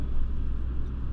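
A passing car with a struggling transmission makes a steady, low engine rumble that keeps going without a break.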